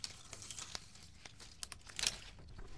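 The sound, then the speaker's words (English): Film splice being cut and taped: soft crinkling and tearing of splicing tape with faint clicks of the cut, mostly quiet, and a louder crackling burst near the end. “And we're going to make the first cut on the first side. Ready? First on-air splice here.”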